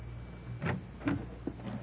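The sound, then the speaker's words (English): A door opening at a small white bungalow, heard as a few soft, brief clunks and rattles, faint and spaced apart over a quiet low hum. “I rang the bell for a long time before the door opened.”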